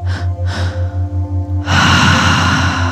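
A deep exhaling breath: two short breathy puffs, then a long, loud, sustained exhale that carries to the end, all over a steady, pulsing low tone.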